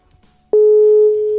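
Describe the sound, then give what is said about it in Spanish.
A telephone tone heard while a call is being placed: a single steady, even tone begins after a brief moment of low background noise and holds to the end, slightly quieter in the latter part. “Pero le estoy llamando a Beatriz.”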